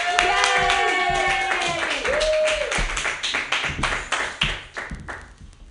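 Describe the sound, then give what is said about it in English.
Open-mic comedy audience clapping for a comedian as a voice whoops over the opening. The applause is modest and thins out into a few scattered individual claps by the end. “Put your hands together for Ken Suzuki. Yay!”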